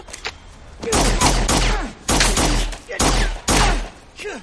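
Pistol gunfire in an action thriller fight scene: rapid clusters of loud, sharp shots with a low thump beneath, coming in a few quick runs separated by short pauses.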